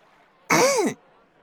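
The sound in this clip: A single short, voiced throat-clearing cough, about half a second long, loud against an otherwise quiet background.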